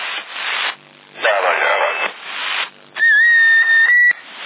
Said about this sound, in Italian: Dai, il fischio. Hola. Avanti il fischio.